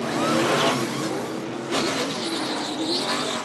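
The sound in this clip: A NASCAR pit stop that includes refueling with a 15% ethanol blend, dominated by a loud, steady roar of a race car engine that surges briefly at a few points.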